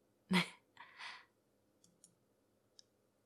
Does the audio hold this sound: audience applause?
no